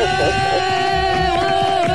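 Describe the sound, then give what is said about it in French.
A studio audience at a live radio show cheers and calls out in response to the host, a steady, dense crowd noise with sustained tonal sounds under it. “Ah, le public est en pleine forme, hein, ma chérie.”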